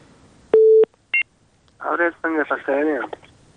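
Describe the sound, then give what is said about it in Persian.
Telephone keypad tones as a listener's call connects: one longer electronic tone, then a brief second tone, after which a voice begins speaking. “صدای نورا درست نداشتیم و تماس شون قطع شد. بازم تماس داریم.”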